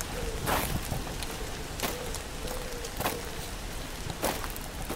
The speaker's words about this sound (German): Leider regnet es momentan noch ziemlich heftig, aber laut Vorhersage soll das später besser werden.